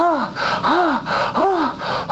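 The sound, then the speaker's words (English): A voice imitates heavy panting after a race, with a few loud, rhythmic gasping breaths in quick succession, each swelling and dropping in pitch. “He's panting.”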